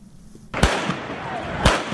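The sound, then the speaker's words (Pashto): Gunfire from security forces during street protests in Pakistan-administered Jammu and Kashmir: two loud, sharp bangs a second apart with fainter pops between them, over a continuous rough background noise. “دا د هغو ډزو اوازونه دي چې امنیتي ځواکونه یې د پاکستان تر ادارې لاندې جمو کشمیر کې د خلکو د مظاهرو په وخت کوي.”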